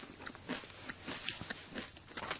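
Faint crisp crunching as someone bites into crunchy, crackly food: several short, dry bursts of crackle scattered at an uneven pace over low background noise.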